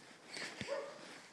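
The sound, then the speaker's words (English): A single faint, short dog bark from one of several territorial dogs on a housing estate, heard over a steady low background hiss. “We have almost been attacked by two dogs on the left and in front. You'll probably hear in a minute, and I will try to let you hear a dog bark”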